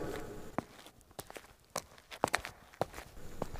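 Footsteps of a person walking outdoors, a series of soft, irregular steps that land as a few brief thuds, fairly faint throughout.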